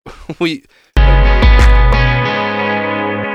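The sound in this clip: An electric guitar chord played with delay and reverb effects rings out loudly and sustains, slowly fading. A brief spoken voice comes before it.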